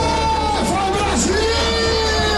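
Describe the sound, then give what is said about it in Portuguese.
Football fans in a packed bar cheer and yell during a Brazil national team match: a loud, constant mass of shouting and chanting voices, with individual yells sliding up and down in pitch. “E a empolgação era tanta que o bar parecia arquibancada. A torcida ficou animada com o primeiro tempo da seleção.”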